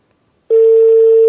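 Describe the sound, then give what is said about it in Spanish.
Ringback tone on an outgoing telephone call that goes unanswered: a steady, single-pitched electronic tone starts after about half a second of silence and holds unbroken to the end. “Sigue sonando. Creo que no nos van a contestar.”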